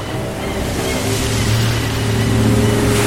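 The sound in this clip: A boat speeds toward shore over the open sea, its low engine hum running beneath a steady, loud wash of surf and wind noise that swells slightly as it comes closer.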